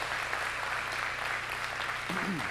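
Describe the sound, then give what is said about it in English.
Congregation applause at a church service, welcoming viewers who join online: dense, steady clapping fills the whole stretch at an even loudness, and a voice comes in near the end. “Let's give them a hand right now and welcome them into our service today.”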